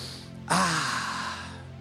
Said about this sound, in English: Everybody right now, take a deep breath in and go like this.